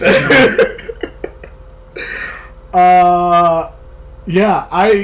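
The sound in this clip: A person coughs, clears their throat and gags after food almost came back up, with several loud, rough bursts and a strained, drawn-out retching sound in the middle.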